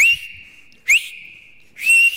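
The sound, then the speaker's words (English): Whistle blasts like a lifeguard's at a beach: three loud, shrill bursts, each starting with a quick upward swoop, linked by a steady, quieter high tone that carries on between them. “you'll hear the lifeguard going, like blowing his whistle, like,”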